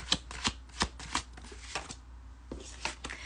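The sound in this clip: Tarot cards are shuffled in many quick, papery riffles and flicks, with a slightly uneven rhythm and no voices.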